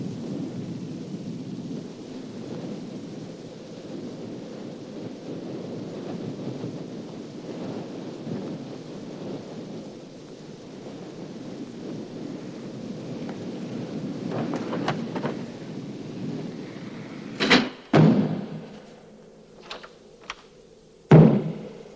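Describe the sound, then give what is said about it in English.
Wind roars in a steady, low, rumbling drone through a stormy night, then a few sharp, loud bangs break in near the end. “It's only the wind.”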